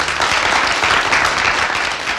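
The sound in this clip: An audience applauds warmly to welcome a guest onto a show. A dense, steady wash of clapping holds at an even, loud level from start to finish.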